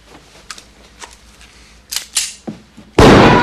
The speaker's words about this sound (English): And then Mouse just shoots him in the shoulder